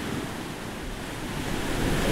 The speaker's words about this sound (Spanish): Mar.